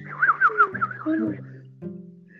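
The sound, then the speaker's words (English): Warbling, trilled chirps of a small bird, a few quick wavering calls at the start and then quieter scattered notes over a low steady hum. “What is that? That was a birdie.”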